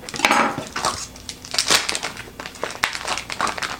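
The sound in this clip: Plastic wrapping on a package of standard cut bacon crinkles and crackles as it is cut open, with many short rustling bursts and a few sharper clicks, fairly quiet and with no talking.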